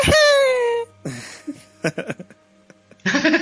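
A person's loud, high wailing cry falls in pitch, then a few short, sharp vocal bursts and sobbing sounds follow after a brief pause. A strong, noisy outburst closes the moment.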